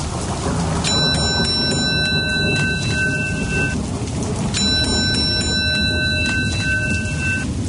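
Steady rain falls throughout as a dense, continuous hiss. Two separate bursts of bright, sustained high tones sound over it.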